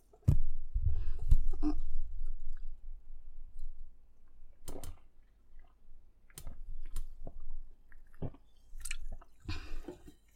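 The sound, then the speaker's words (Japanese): A person drinking water makes sporadic wet clicks, squishes and swallowing sounds, with quiet gaps between them and no talking. “ちょっと座り直してお水飲みます。”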